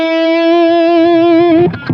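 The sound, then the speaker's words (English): A loud, distorted electric guitar note is played with finger vibrato, its sustained tone wavering gently in pitch for about one and a half seconds before breaking into brief, noisier playing. “So finger vibrato would give you something like that.”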